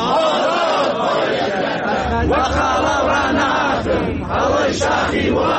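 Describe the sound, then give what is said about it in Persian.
A crowd of teachers chanting protest slogans at a gathering in Iran, loud massed voices shouting together in continuous waves, with a low rumble joining partway through. “شعارهای فرهنگیان در شهرهای ایران.”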